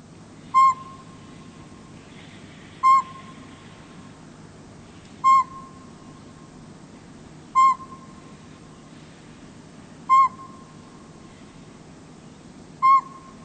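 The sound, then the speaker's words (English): Northern pygmy owl calling: six single, clear, mid-pitched toots spaced evenly about two and a half seconds apart, each short and tonal, over a quiet low background hiss. “And it's a northern pygmy owl.”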